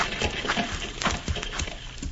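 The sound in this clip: Horses stamping and shuffling their hooves during a stagecoach holdup in a western setting: a few dull, uneven thumps and scrapes over steady low background noise, with no voices.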